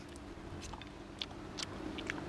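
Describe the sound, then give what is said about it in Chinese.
Faint chewing and biting while tasting stir-fried gourd with pork: a few soft, crisp bites and mouth sounds over a quiet background. “这尝一下我们今天做的这个葫芦菜，先尝一下这个葫芦炒肉”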